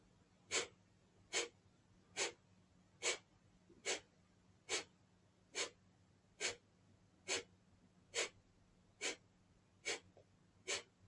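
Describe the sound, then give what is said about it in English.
Short mid-range breaths taken during a guided breathing exercise: thirteen brief, breathy bursts spaced evenly at a steady rhythm, each about the same loudness. A faint low hum runs underneath. “And we do it again after a mid-range inhale.”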